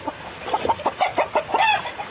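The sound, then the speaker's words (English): A half game, half big stock rooster clucks in a quick, rhythmic run of many short clucks of moderate loudness. No voices are heard, and the scene is by a creek on a chilly, drizzly spring day. “12-year-old Jim Wallen gives his rooster, Red, some fresh water.”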